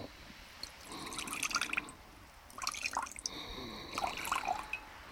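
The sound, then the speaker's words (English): Liquid is poured from a bottle into a jar as part of mixing a potion, giving faint, irregular trickles and drips that come in three short bursts with quiet gaps between them. “Now I add 3 measures of liquid from this bottle.”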